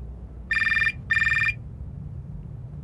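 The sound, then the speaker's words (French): Telephone ringing with an incoming call: two electronic ring bursts, each a bright, rapidly trilling tone lasting just under half a second, separated by a short gap over a low background hum. “Un coup de fil.”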